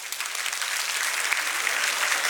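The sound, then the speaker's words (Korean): Audience applause as participants clap for their partners during a Korean self-help talk: steady, dense clapping at moderate level with no voices over it. “짝꿍한테 박수 한번 쳐주세요.”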